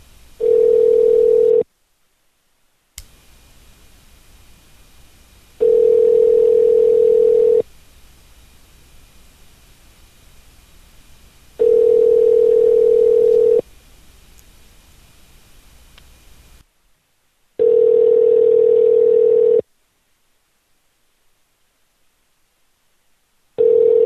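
Telephone ringback tone on a call to a bail bonds office: four steady, loud buzzing rings of about two seconds each, separated by longer gaps of line hiss, with a fifth ring just starting at the end.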